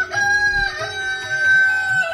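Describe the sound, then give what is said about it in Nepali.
A rooster crows on a small farm where goats are penned, a sustained, fairly loud tonal call that holds for about two seconds with no talk. “भाले बासिसक्यो होला,”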